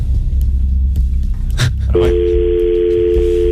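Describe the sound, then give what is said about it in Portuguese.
A steady telephone dial tone starts partway through and holds to the end, a clean, even hum over low background rumble while a call is placed. “António Sala está a digitar neste momento. Estamos aqui diretamente da telefonia.”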